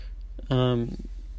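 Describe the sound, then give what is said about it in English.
A single short, voiced throat clearing from someone congested by sinus trouble, a low, humming grunt lasting well under half a second, with quiet around it. “Sinus has been an issue somewhat, because I've been congested somewhat, as I am now. So pardon me with my clearing of my throat.”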